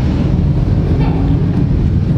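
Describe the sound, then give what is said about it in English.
Motorcycles approaching and passing during a sermon: a dense, steady low roar of engine rumble and wind-like noise that fills the whole clip without a break. “I was warned about the motorcycles today, and here they come.”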